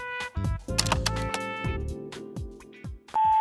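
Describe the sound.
A voicemail playback beep: a steady, loud electronic tone sounds alone at the end, after a few seconds of mixed tonal clicks and hums.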